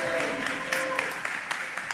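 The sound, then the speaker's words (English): Audience applause at a hip-hop theater festival event, a steady dense patter of many clapping hands with a few sharper claps standing out, and a voice briefly audible near the start. “All right, y'all clap it up for them. Clap it up, clap it up.”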